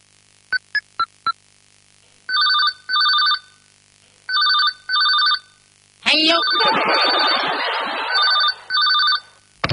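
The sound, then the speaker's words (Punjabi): Telephone ringing in repeated double rings, with three pairs of bright electronic trills. Four quick beeps come first, and a loud, noisy rustling burst overlaps the rings midway. “Bhano the phone ਖੜ ਕੇ”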